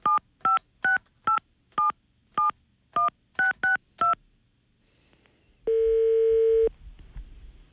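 Touch-tone telephone dialing as a number is keyed in for a call, ten short beeps at uneven spacing, followed by a single long, steady ringing tone.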